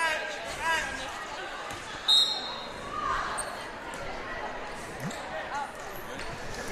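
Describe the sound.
A basketball is dribbled during a girls' high school game, the bounces soft and repeated beneath constant crowd noise and voices talking.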